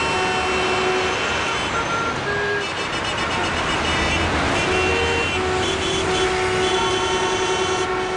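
City street traffic of cars and trucks in Toledo, Spain, in August: a dense, steady roar of engines and tyres that runs throughout, with thin tonal whines and beeps layered on top.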